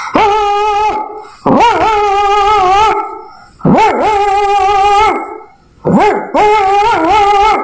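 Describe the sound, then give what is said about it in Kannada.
A pet dog kept at a grandmother's house barks in four loud, drawn-out, howling calls, each about a second long with a wavering pitch, separated by short gaps. “ಅಜ್ಜಿ ಸಾಕಿರುವ ಒಂದು ನಾಯಿ ಈ ರೀತಿ ಬಗಲುತ್ತಿತ್ತು.”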